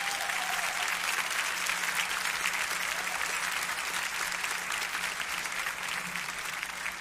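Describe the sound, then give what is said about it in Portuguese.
A church audience applauds with a dense, steady wash of clapping that holds at an even loudness for the whole stretch. “Eu queria que os irmãos dessem uma salva de palmas para ele.”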